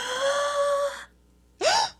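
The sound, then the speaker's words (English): A sharp, exaggerated gasp: a long, drawn-out voiced intake of breath, then after a short pause a second, briefer vocal burst that slides upward in pitch. “So anytime you hear a sharp or exaggerated gasp,”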